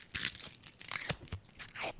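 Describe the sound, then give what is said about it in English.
Crisp crunching and crackling as a fortune cookie is cracked open by hand, a few brittle snaps and papery rustles, fairly faint and with no voices. “I have a fortune cookie here we had from lunch today. And I'm just going to crack it open.”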